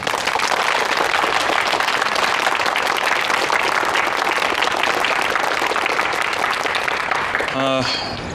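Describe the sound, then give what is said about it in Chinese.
Warm audience applause greets a speaker at a police bureau gathering. The clapping is dense and loud and holds steady throughout, then begins to thin as a single voice starts talking at the very end. “同志们用热烈的掌声请宋军同志为我们讲话”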